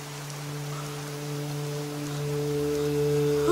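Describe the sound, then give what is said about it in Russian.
A fountain gushes outside a window as a steady, even hiss of falling water. Sustained low humming tones run underneath and swell slightly toward the end. “За окном бьющий фонтан.”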